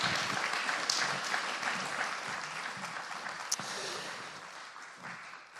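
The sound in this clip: Audience applause breaks out to thank a guest, a dense, steady crackle of many hands clapping at an even level from start to finish, with no talk over it.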